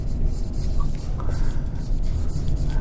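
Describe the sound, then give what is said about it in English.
Steady writing during a business finance lecture, a continuous dry scratching and rubbing that lasts the whole moment with no voices over it. “Now over here, I'm going to write salvage value.”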